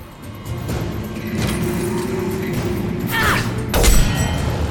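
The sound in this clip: Rocket explosions in a video game: two heavy booming blasts, one carrying a brief whooshing streak, land over a continuous rumbling game soundscape, with the second burst louder.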